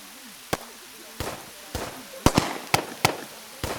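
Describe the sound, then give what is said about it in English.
Pistol fire in the hills: a series of sharp, loud cracks at irregular intervals, some in quick pairs, each with a short decaying tail. “those aren't pings. That's pistol fire.”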